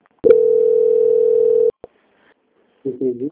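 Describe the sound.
Call transfer tone on a phone line while a bank customer is put through to quality control: one steady, even beep holds for about a second and a half, then a click, a pause and a brief burst of voice.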